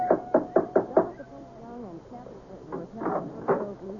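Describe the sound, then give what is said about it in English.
A big brass door knocker strikes a front door five times in a quick, even rhythm, each knock sharp and heavy, and a voice follows. “There was a big brass knocker on the front door.”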